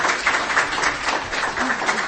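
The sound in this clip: Audience applause at a gathering, steady and even clapping throughout, with a voice faintly heard over it.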